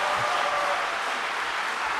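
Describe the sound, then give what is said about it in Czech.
Soft applause from a concert audience after a performance of Mozart's Piano Concerto No. 12 in A major, arranged for piano and string quartet: an even, gentle patter of many hands. “Právě tito umělci získali před chvílí vyslechnutý aplaus za jejich provedení koncertu pro klavír číslo 12 a dur a quattro Wolfganga Amadea Mozarta.”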